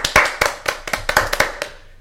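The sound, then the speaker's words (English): Applause in a studio, from what sounds like only a few pairs of hands: many sharp, distinct claps arriving irregularly rather than merging into a wash, then tapering off toward the end. “I don't know why we're applauding, to be honest, because he failed ultimately to win the US Open.”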